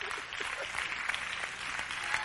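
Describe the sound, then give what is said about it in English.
Audience clapping during a sermon, a dense, fairly steady patter of many hands at moderate level with a few sharper claps standing out, continuing evenly throughout without any clear pauses. “You're supposed to clap, man.”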